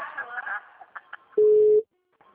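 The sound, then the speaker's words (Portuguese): One steady ringback beep of an outgoing phone call, a pure mid-pitched tone lasting under half a second, comes after a few moments of quiet talk and is followed by near silence. “Me atende aí, eu vou ligar. Atende, querida.”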